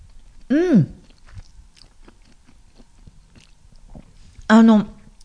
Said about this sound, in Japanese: 茹で上がったパスタにソースを混ぜて出来上がりました。ちょっと食べてみますね。